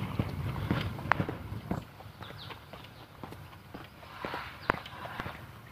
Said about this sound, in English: lady during her race walk. She's working up a good sweat.